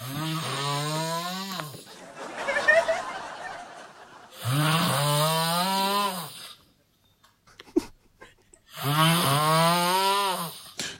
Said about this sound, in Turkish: Ya iki kişi horluyor gibi. Biri horluyor, bitiriyor, diğeri başlıyor gibi.